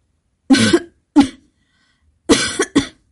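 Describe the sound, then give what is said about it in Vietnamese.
Harsh, wet coughing as someone coughs up blood while lying on the ground convulsing. A few strong bursts come in two clusters separated by silence, with no talk. “Du Diệu ho ra một búng máu tươi, đầu óc hỗn loạn, nằm trên đất co giật không ngừng.”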